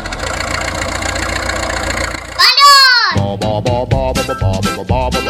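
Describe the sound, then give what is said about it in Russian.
Children's voices imitate aircraft engines starting up, making a droning hum that swells and arcs in pitch, then break into lively, uneven vocal bursts over a steady background buzz. “Летчики, на аэродром! Заводим моторы!”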